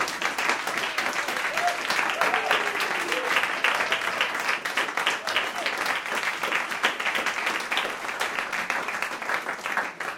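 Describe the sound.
Sustained applause from the audience at the launch of a new recital series in New York City's Studio 113: dense, steady clapping that holds at an even level for the whole stretch.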